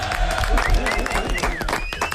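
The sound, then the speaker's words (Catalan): Audience applause for a correct answer in a quiz game show, brisk clapping with people talking over it. “Ah, ostres! Molt bé, un aplaudiment.”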